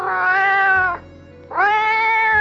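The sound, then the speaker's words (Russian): A cat meows as a boy drags it by a rope tied around its neck: two long, loud, drawn-out tonal cries with a short pause between them. “Видит, поймал мальчишка кота, обвязал веревкой шею и тащит.”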